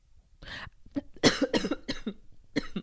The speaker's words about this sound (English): Sorry. I was choking.